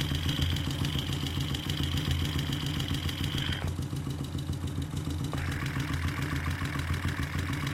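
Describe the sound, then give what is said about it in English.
Transmission gears spinning under a running engine, a continuous mechanical clatter over a low idle, with a high whine that cuts out midway and returns slightly lower. “Now we're at the transmission. You can hear gears spinning.”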